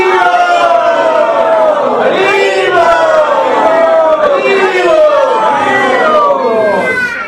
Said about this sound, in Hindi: तो इसलिए जोर से पूरे जोर से प्रभु जी का 3 बार हरि बोल बोल के स्वागत करेंगे।